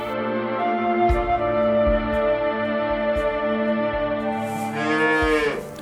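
A calf moos outside a rural household in one long, sustained, low and richly harmonic call that lasts the whole clip. Near the end it turns briefly rougher and brighter.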